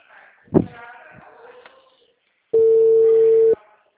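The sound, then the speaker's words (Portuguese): A telephone call goes unanswered: a single steady, mid-pitched ringback tone sounds for about a second, after a short burst of muffled noise. “Você pediu para eu ligar e não atende, né?”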